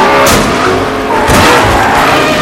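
Race cars speed and skid on a track in the animated film Cars: a loud, continuous roar of engines and tire noise that surges twice, with no voices.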